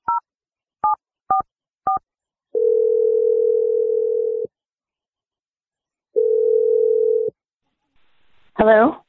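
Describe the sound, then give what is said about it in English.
A telephone number is dialed with four short keypad beeps, followed by two long, steady ringback tones separated by a pause, and a voice briefly answers at the end. “I'm going to dial Ellie's number right now and we're going to do our best.”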